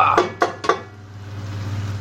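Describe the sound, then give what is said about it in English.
Mushrooms tipped into a pan of sautéing onion: three clattering knocks in quick succession, then a quieter, continuous cooking sound underneath. “I'm starting to notice some color just around the edges of the onion. That's good enough for me. And so now I'm gonna dump in the mushroom.”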